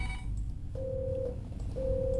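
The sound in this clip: A telephone rings with an incoming call in a studio. Two steady, mid-pitched tone bursts of about half a second each sound over a constant low background hum.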